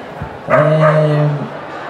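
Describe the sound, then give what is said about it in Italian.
A dog gives one drawn-out bark or whine during a book presentation. The call is loud and steady in pitch, lasts about a second, and stands out over a low background murmur. “fate sta zitto sto cane”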